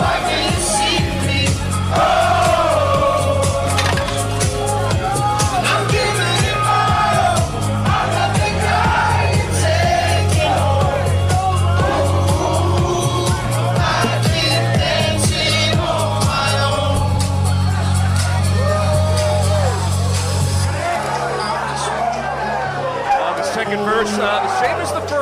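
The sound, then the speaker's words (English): A Phillies clubhouse celebration after clinching a trip to the NLCS, with the team's theme song pounding a steady bass beat amid crowd whoops and chatter, a voice talking over it; the music cuts off near the end. “There goes the music, as you can hear the celebration in full swing right now here in the Phillies. You can't even take a listen. As the theme song is playing, they're dancing on their own.”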